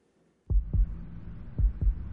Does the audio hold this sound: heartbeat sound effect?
yes